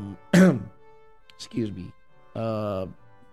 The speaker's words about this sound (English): As you can see, I have some trouble with my throat and coughing right now.